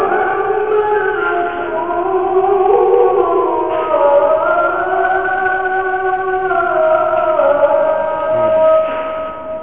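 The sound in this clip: A police siren passes outside, its loud wailing tone sliding steadily up and down for the whole stretch.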